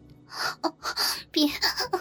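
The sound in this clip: A woman gasps and moans in short, breathy voiced bursts, several in quick succession with brief gaps between them.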